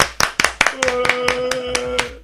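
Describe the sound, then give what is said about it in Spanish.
Hands clap in a steady, even run of sharp claps, about ten in just over two seconds, over a faint sustained tone in a radio studio. “Un aplauso para vosotros. ¡Bravo!”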